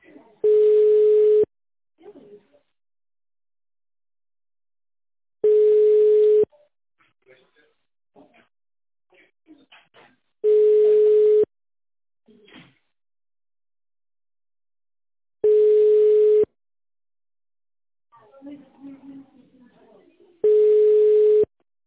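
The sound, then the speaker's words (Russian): Telephone line tone: five long, steady, mid-pitched beeps, evenly spaced about five seconds apart, with faint scattered murmurs in the silent gaps between them. “Аппарат вызываемого абонента занят.”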